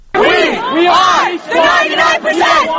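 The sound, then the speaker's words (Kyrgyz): Occupy Wall Street protesters in Zuccotti Park shout and chant together about being the 99 percent. Loud massed voices rise in rhythmic unison phrases across a few bursts, with short pauses between them. “Акциянын катышуучулары болсо ушинтип биз элдин 99% түзөбүз деп байлыктын көп бөлүгүн 1% гана байлар колдонуп атканын кыйкырып атышты.”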